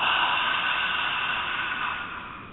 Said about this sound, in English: take a full breath in through your left nostril, then close both nostrils, expelling out through the mouth with a ha sound